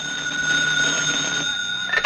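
A telephone rings with a bright, continuous electronic bell tone held steady for about two seconds, ending in a few brief clicks.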